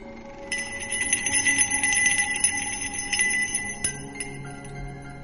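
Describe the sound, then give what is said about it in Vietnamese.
A small spirit bell hanging at someone's waist jingles suddenly, producing many bright, light metallic strikes with ringing overtones that cluster closely at first and then thin out and fade toward the end. “thần nhạc linh treo ở bên hông của Bạch Phàm bỗng nhiên rung lên những tiếng leng ca leng keng.”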